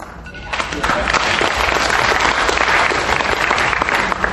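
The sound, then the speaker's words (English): Audience applause at an evening candidate forum: dense, sustained clapping that swells in after a brief quieter start and stays loud and even to the end. “I want to thank everybody, candidates and audience alike, for attending the forum tonight, helping us be informed, and coming here to be informed. Let's have another round of applause.”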